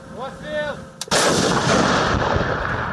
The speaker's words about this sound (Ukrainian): Чтобы разрушить такие укрепления и помочь своей пехоте наступать, украинские военные используют в том числе пионы.